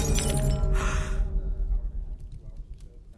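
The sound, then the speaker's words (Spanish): A wine glass full of liquor shatters in a woman's hand, a brief, bright crash of breaking glass over a dense low background, quickly fading away. “a una de las prostitutas que lo agasajaban se le rompió una copa en la mano, derramando todo el licor en el atuendo de cuero.”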